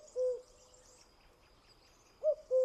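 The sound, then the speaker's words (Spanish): A common cuckoo calls in a field recording with soft, low, hooting notes. A single note is followed after a long pause by a two-note call, over faint background hiss. “Este paisaje sonoro lo escribe con su voz el cuco,”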